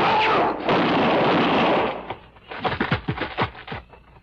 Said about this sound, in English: Because now I'm going to kill you with your own gun.